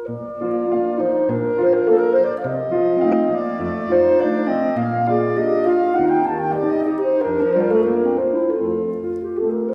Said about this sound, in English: 4-minute pieces of music, so we used 10-second clips as our long clip. And that would sound like this.